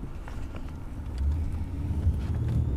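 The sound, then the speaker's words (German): A car drives through small villages in Lusatia, heading toward an open-pit lignite mine. Its steady low engine and road rumble swells slightly in the second half, with no voices. “Mit dem Auto geht es eine knappe halbe Stunde durch kleine Orte.”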